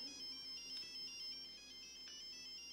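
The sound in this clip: A telephone rings with a faint electronic ringtone, a quick high-pitched beeping pattern repeating steadily throughout, with no voices over it.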